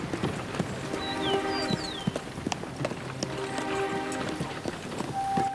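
Hooves of a horse pulling a cart piled high with straw clip-clop in a steady, busy rhythm of sharp knocks, moderately loud and continuous throughout.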